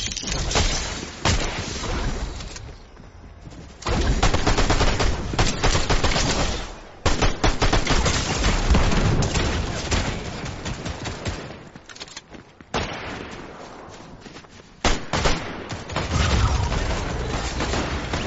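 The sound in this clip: Video game gunfire in an online shooter match against another player and an NPC: loud, dense bursts of rapid automatic fire and booming shots that continue through most of the stretch, with a few brief lulls.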